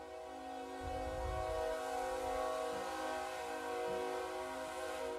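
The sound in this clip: A passing train sounds a sustained, steady horn that holds for the whole stretch over a low, rolling rumble of the cars.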